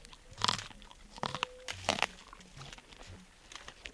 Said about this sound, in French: On va ouvrir l'épi pour regarder. Et alors là, on peut le manger là directement ? Oui, bien sûr. On peut le manger comme il est.